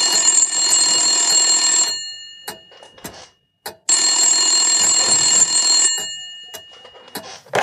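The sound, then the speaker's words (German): A telephone ringing with a long-awaited incoming call in an office: two long, bright, buzzing rings separated by a pause, loud and alone with no talk. “als ein lang ersehnter Anruf kommt”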